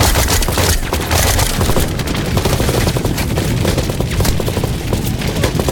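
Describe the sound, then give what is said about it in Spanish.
Sustained suppressive gunfire, a dense, unbroken barrage of loud shots and cracks that hold steady across the whole stretch with no pauses. “vienen esos disparos? De todos lados. ¡Fuego de supresión!”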